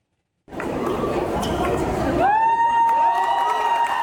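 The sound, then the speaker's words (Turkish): Wedding guests in a wedding hall cheer and clap as a newlywed couple plays volleyball over a net. A steady, noisy crowd roar with chatter is joined partway through by a loud, sustained high tone. “Davetliler de alkışlarla kendilerine destek verdi.”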